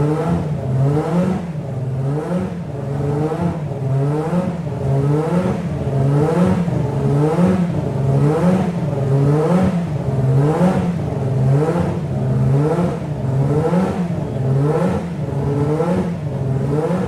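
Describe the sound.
A Formula 1 car engine revs at around 7800 to 8000 rpm, loud and continuous, with many rhythmic swells in engine note that come roughly once per second.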